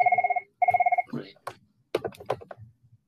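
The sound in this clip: A mobile phone rings in two short bursts of rapid, warbling electronic trill, separated by a brief pause, followed by several scattered clicks and taps.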